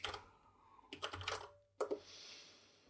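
Typing on a computer keyboard while entering a web address: quiet clusters of rapid, clicky keystrokes separated by short pauses.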